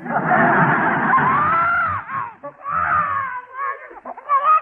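Babies cry in a loud, sustained wail while being diapered. The wailing breaks briefly around the midpoint, then resumes in shorter, wavering bursts.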